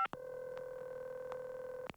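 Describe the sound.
A telephone dialing a hotline number: a faint, steady dial tone held for nearly two seconds, broken by a few short clicks.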